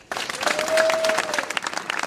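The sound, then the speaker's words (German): Applause and cheering from a crowd of about 250 people at a protest rally outside the town hall in Wutach, with dense, steady clapping that holds throughout. “Vor dem Rathaus in Wutach wird geklatscht und gejubelt. Rund 250 Menschen sind zur Kundgebung gekommen.”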